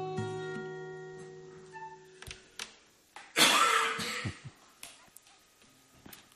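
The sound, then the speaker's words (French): A cough during a live session, a sudden harsh burst lasting about half a second after a quieter stretch of fading tones, followed by a few faint short sounds. “Ah bah oh là, t'as eu une envie de tousser.”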